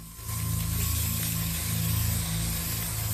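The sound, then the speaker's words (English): An aerosol spray hissing onto a hornet nest, a steady, loud, continuous hiss that runs almost the whole time without a break. “sprays the nest”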